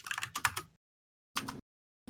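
Rapid keystrokes on a computer keyboard while someone plays a video game: a dense run of clicking taps lasting under a second, a short silence, then a second brief burst of typing, with no voices.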